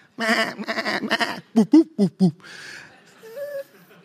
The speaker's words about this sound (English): there were likely multiple flocks housed in the one pen at night, each with their own shepherd. And so each flock had to develop a, I mean, think about the noise in that pen.